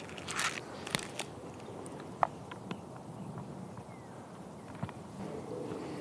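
Faint biting and crunching of a chocolate bar flavoured with mountain pine, with a few sparse, crisp clicks and snaps over a low, steady background.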